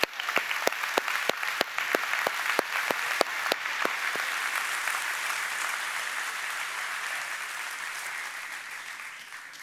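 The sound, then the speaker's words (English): A church audience applauds to welcome a guest, a barber, on a Sunday. A few distinct early claps quickly swell into dense, sustained clapping that holds steady and then eases off slightly toward the end. “And so, so would you welcome Kev the Barber?”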